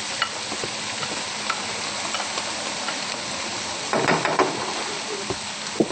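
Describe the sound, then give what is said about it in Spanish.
Mushrooms and garlic frying in a pan, a continuous broad sizzling hiss with scattered light scrapes and knocks of stirring that grow busier toward the end. “Esto debe quedar bien frito. Le echamos también a la vez ajo. Siempre pongan el ajo después de los hongos.”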